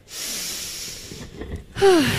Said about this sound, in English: let's maybe try to take a deep breath.